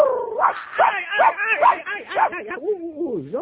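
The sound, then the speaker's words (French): A dog barks and whimpers, giving a quick run of high, yelping barks followed by drawn-out whining whose pitch wavers up and down. “Gentil toutou, oui, ça va.”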